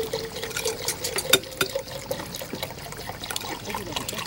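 Liquid pouring during cooking, a continuous uneven trickle and dribble with small splashy spikes, steady and moderately quiet throughout, with no voices.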